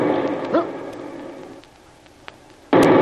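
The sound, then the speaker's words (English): A torpedo strikes a ship. After a quiet stretch of faint, low murmuring sound, a sudden loud, broad blast bursts in near the end and holds at full strength. “That was a torpedo. Stand by. We may have to abandon ship.”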